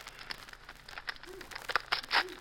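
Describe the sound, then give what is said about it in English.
Paper envelope being torn open: quiet crinkling and ripping rustles in a few uneven bursts, growing a little louder toward the end. “Naughty, naughty. You're opening other people's mail.”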